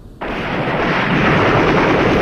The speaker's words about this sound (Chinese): 远处突然传来了稠密的枪声